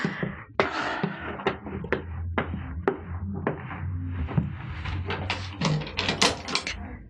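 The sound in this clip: A door being opened indoors, heard as a busy run of sharp clicks, knocks and rattling clatters. The hits are irregular and uneven in loudness, with short dull bumps between them.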